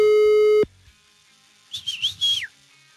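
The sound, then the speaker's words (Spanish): Telephone line tone of an unanswered call: a steady buzzing tone sounds alone, stops abruptly, and after a pause a short burst of high warbling tones follows. “Le estamos marcando a Alejandro Arturo y pues ya nos debió la llamada. Una segunda oportunidad, vámonos. Mi brother no nos contesta.”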